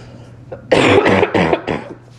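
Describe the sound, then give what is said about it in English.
Coughing from a sick man: a loud fit of several rough, chesty coughs in quick succession, each burst short and harsh, fading off at the end. “Hold on, I'm about to cough real quick, okay?”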